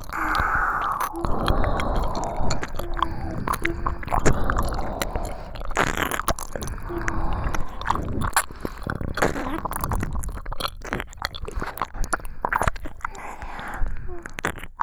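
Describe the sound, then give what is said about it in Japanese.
Wet ear-licking sounds from two people in an ASMR recording: dense, continuous smacking, slurping and clicking mouth noises, fairly loud and close, with no pause across the whole stretch. “二人がかりでお耳舐められる。”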